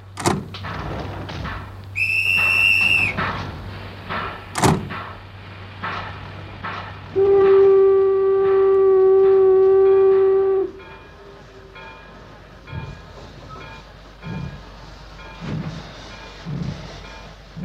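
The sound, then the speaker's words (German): A steam train departs in a Wild West setting, giving a short high whistle, then a loud, low, steady whistle held for about three seconds, with scattered thumps and clanks before and after. “Baranka, hier Baranka, beim Einsteigen beeilen und die Türen schließen.”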